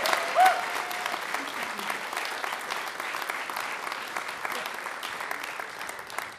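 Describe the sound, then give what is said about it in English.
Audience applause welcoming a fiddle player at a UConn stage show, a steady wash of many hands clapping that holds evenly from start to finish at a moderate, fairly soft level. “You all, please put your hands together and give her a big UConn welcome.”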